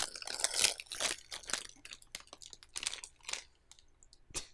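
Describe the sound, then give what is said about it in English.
Crinkling wrapper of chocolate-flavored Twizzlers candy being opened, with possible chewing: quiet, irregular crackles and crisp rustles coming in quick clusters with short pauses between them. “Is it a candy? God, yeah, it is. It is Twizzlers Hershey's chocolate flavored.”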